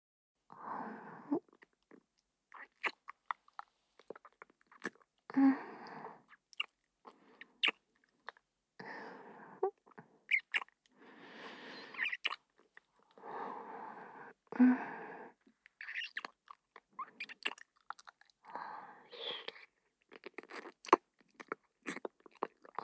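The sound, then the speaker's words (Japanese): Soft, wet kissing: many short smacking bursts in an irregular rhythm, faint and separated by quiet gaps. “それでは、まずは接吻から。”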